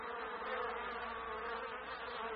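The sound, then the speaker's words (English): Bees buzz in a dense, continuous drone with no breaks or other sounds, holding an even, fairly quiet level throughout. “"Bees," said the mouse, "you will have to fly away. I do not want a nest of bees sitting on the top of my head."”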